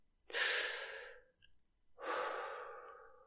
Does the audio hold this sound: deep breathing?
yes